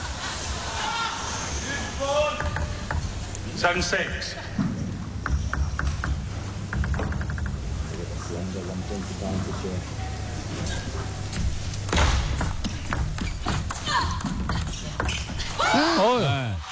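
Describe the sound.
A table tennis rally with Hayata Hina serving against Sun Yingsha: sharp ball clicks at irregular intervals under continuous commentary.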